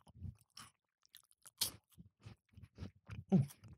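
Crunchy chewing of a wafer snack, quiet and close, with a series of irregular bites and crunches separated by short pauses and no talk.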